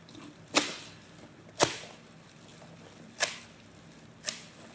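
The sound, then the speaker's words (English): Sharp crunching snaps of garden shears cutting through the chest bones of an animal during a post-mortem: four distinct cracks at uneven intervals over a quiet, faintly hissy background. “so that's the sound of the garden shears cutting open the bones in the chest.”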